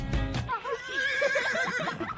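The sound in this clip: A horse neighs in an ad for the Centro Hípico Ecus Duri riding centre, giving one loud, long wavering whinny that follows a short burst at the start.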